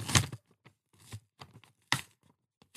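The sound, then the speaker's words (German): A large yellow paper envelope is torn open in several short, crisp ripping bursts separated by quiet pauses. “Okay, ich habe einen großen gelben Umschlag in der Hand, ich reiße ihn auf. Das ist jetzt so ein bisschen ASMR, ne?”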